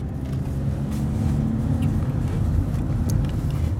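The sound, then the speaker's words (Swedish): A car driving through a tunnel gives a steady low engine and road rumble. The noise holds a constant level throughout, with no voices. “vi närmar oss slutet på den här bilresan. Jag tappar koncentrationen och kör fel.”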